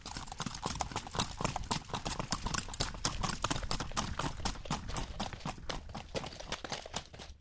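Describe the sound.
Hooves of a criollo mare trotting and galloping on an unpaved dirt road: many rapid, evenly spaced hoofbeats, loud and steady throughout with no pauses.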